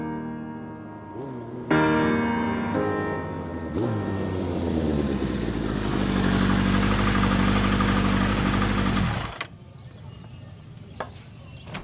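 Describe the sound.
A car engine idling after a few laps around the block, a steady low rumble that grows louder early on, holds, then cuts off abruptly near the end, leaving a few quiet clicks.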